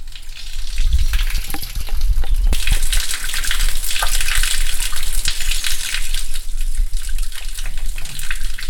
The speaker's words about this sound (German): Was Sie hören, ist der Schweinbach, der unterhalb des Dorf Schweinbach fließt.